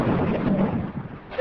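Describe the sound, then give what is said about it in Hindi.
A deep, rumbling explosion in the Korangi–Orangi number 5 area, heard as a broad, low roar that stays loud for about a second and a half and eases slightly near the end. “एक और धमाके की आवाज़ सुनी गई है”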